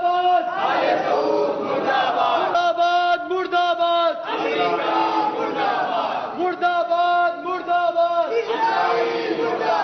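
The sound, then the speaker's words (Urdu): A protest crowd over Jannat al-Baqi chants anti-Saudi, anti-American and anti-Israeli slogans: many voices shout together in a loud, rhythmic call. Short repeated phrases come in unison with brief gaps between them. “جبکہ آل سعود مردہ باد، امریکہ مردہ باد، اسرائیل مردہ باد جیسے نعرے بھی لگائے۔”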